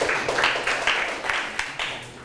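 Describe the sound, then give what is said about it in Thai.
Students in a Thai language lesson clap for themselves. The applause comes as a steady, rhythmic pattern of repeated clap bursts, fairly loud and evenly spaced. “ปรบมือให้ตนเองอีกครั้งเก่งมากๆเลย”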